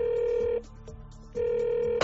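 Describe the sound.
Ringback tone on an outgoing telephone call: two long, steady, mid-pitched tones separated by a short silent pause, ending in a sharp click.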